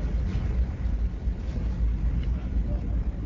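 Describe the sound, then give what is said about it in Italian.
Deep, steady engine rumble from a ferry pulling away from the dock fills the whole clip, a dense low drone with no clear breaks. “In questo momento il traghetto è partito, stiamo sentendo dei rumori inquietanti, c'è un rombo pazzesco,”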